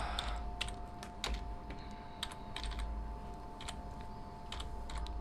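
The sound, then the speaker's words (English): Typing on a computer keyboard, a quiet run of irregular key clicks with short pauses between bursts. “And you're gonna have to hear me type it.”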